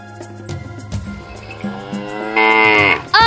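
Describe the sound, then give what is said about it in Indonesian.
A water buffalo lows after its tail is pulled hard, so the ridden animal bolts. A few deep, harmonic bellows swell into a louder, higher, drawn-out call near the end, with no voices. “Dani kemudian menarik ekor kerbau dengan keras, sehingga kerbau yang dinaiki Jundi melonjak dan berlari tanpa kendali.”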